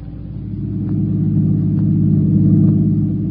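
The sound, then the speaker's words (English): A car driving fast gives a steady, low engine drone, a constant rumble that grows slightly louder partway through, with no voices. “Driving too fast”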